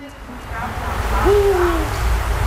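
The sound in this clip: A Eurasian eagle-owl, one of a pair nesting on an apartment block in the city of Šiauliai, gives a single low, drawn-out hoot over a murmuring background.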